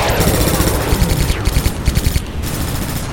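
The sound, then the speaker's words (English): Rapid automatic gunfire from sci-fi point-defense batteries on a warship, spraying microkinetic projectiles at incoming torpedoes, a loud dense rattle of overlapping shots that breaks into distinct sharp pulses midway before fading into a steady wash. “Multiple point defense batteries came to life, filling the space around her with microkinetic projectiles that easily shredded the incoming Ryle torpedoes.”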